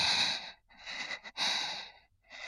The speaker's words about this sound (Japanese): 湿った吐息が私の顔にかかって、